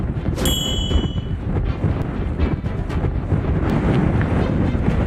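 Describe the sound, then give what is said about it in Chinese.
Strong gale wind roars continuously at a mountain outpost where winter gusts exceed force 8, a dense, loud, steady rush with constant gusting and no pauses. A brief metallic ringing sounds near the start. “500号戒备常年狂风呼啸，冬季阵风可达8级以上。”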